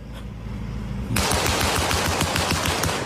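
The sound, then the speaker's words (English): A sound effect of a .50 caliber machine gun mounted on a jeep. After a low, quiet hum, a loud, rapid burst of many heavy shots crackles in a fast, continuous rhythm until the end. “apparently had a 50 caliber machine gun mounted in it.”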